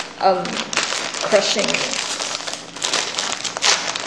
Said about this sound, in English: you tear it open and you see what the hell's inside, right? You see like a packet of noodles and this packet of seasoning